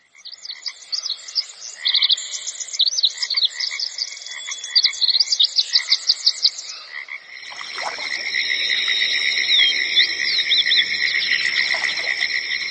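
Forest ambience of cicadas and insects on a jungle trek: rapid pulsing high chirps through the first half, then a steady, loud, high-pitched buzzing drone, with no voices.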